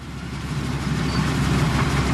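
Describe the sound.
Steady engine rumble of a rice swather harvesting machine driving through a rice field, cutting and laying the crop in rows; a continuous low, even drone with a broad noisy hiss and no voices.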